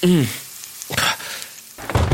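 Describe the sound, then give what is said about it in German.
Onions burning in a pan give off a low, steady hiss and sizzle, broken by two louder noisy bursts that could be stirring. “Oh nein, meine Zwiebeln, die habe ich komplett vergessen. Voll angebrannt.”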